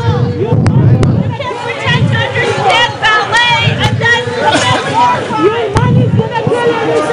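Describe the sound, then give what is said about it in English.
Protesters shout and chant loudly as ballet goers run a gauntlet past them outside a ballet, many voices overlapping in a steady, dense crowd roar that rises and falls throughout, with a few sharp knocks cutting through. “That's the sound of ballet goers running a gauntlet passing the protesters.”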